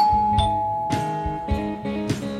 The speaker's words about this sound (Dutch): We staan nu voor zijn huis en we bellen aan.